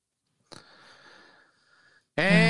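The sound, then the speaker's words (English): A single deep breath, a faint, airy rush lasting about a second and a half, followed by a voice starting to speak. “The point of it is just for you to relax. Relax. Sorry. Take a deep breath.”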